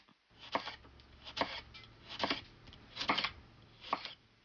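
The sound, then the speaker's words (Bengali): A knife cuts a cucumber into thin, slanted round slices: a handful of crisp, evenly spaced chopping strikes on a board, each a short dry crunch, with no voices. “শশা যতটা সম্ভব পাতলা করে টুকরো করে নিন। পাতলা গোল গোল করে কাটার সময় একটু কৌণিকভাবে ছুরি ধরে বাঁকা করে কাটুন, যাতে করে টুকরোগুলো 5 সেন্টিমিটার লম্বা হয়।”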